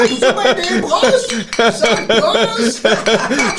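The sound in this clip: Glass bottles clink together in a toast among a group of women, a few bright clinks scattered through lively overlapping voices.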